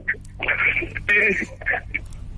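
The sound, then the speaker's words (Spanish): Brief high beeping tones on a phone call that reaches voicemail. Two short blips frame a recorded Spanish-language voice announcing the mailbox. “Buzón de voz. La llamada se cobrará al terminar los tonos siguientes.”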